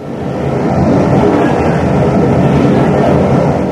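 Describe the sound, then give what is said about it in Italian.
Steady, loud rumble from inside a moving train, a dense continuous roar of wheels and carriage noise with no distinct beats and no voices. “I due ragazzi sono in treno, parlano con una signora.”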